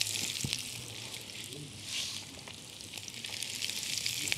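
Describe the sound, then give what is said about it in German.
Vegetables sizzle as they are added to a hot pan with oil, giving a steady, crackling frying hiss that swells slightly at moments and continues throughout. “Jetzt machen wir hier wieder uns Platz, geben dann noch mal ein bisschen Öl dazu und dann kommt unser Gemüse dazu.”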